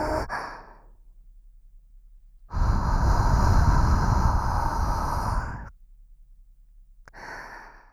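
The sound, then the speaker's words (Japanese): A person takes a deep breath in and out: a long, loud, airy rush of breath lasting about three seconds, with shorter, softer breaths before and after it. “大きく 息を吸って、吐くよ。”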